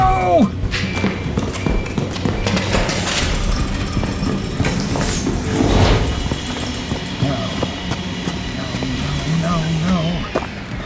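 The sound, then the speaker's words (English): A Quinjet aircraft arrives as an audio drama sound effect, a busy rushing roar of rumble and hiss that runs throughout with voices speaking over it. “Unless I am mistaken, that is the sound of Valeria's Quinjet arriving.”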